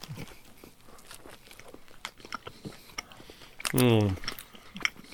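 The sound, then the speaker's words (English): Biting and chewing of spicy strawberry-flavoured food, with many soft crunches and mouth clicks in an irregular rhythm. A short voiced hum rises above the chewing partway through. “It tastes like strawberry. Yeah, there's a little spice there. All right, there's a little spice. Okay, it's building up. I'm taking a second bite.”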